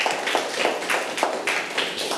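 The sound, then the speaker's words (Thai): Applause from a classroom of students clapping for a classmate: many overlapping hand claps in a loose, steady pulse, moderately loud, with no talk over them. “เก่งมากเลยนะครับปรบมือให้เพื่อนหน่อยครับ”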